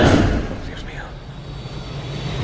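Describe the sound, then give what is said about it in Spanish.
Steady roar of a private jet in flight, a broad, even rushing drone that starts louder and settles to a constant level. “El obispo y un sacerdote vuelan en un jet privado.”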